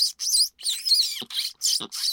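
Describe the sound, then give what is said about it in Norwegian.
Mouse squeaks imitated by a person sucking air between the teeth, a fox-calling trick: a rapid series of about six sharp, high, thin squealing bursts separated by brief silences. “hvordan vil du lage en muselyd I dag uten hjelp av lokkemidler? Da kan du trekke inn luft mellom tenna.”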